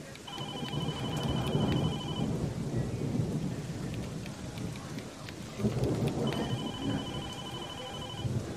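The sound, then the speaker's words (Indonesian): Rain falls as a dense, steady hiss throughout, with low thunder-like rumbling underneath. Two stretches of a repeating electronic beeping tone sound over it. “Dan tak lama hujan mulai turun.”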